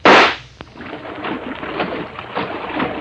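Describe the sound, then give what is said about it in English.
A starting gun fires once at an indoor swimming race, a single loud sharp crack at the very start that rings out and decays into a lingering, echoing wash of noise. “crouched on the edge of an indoor swimming pool, waiting for the starting gun. Ready, set,”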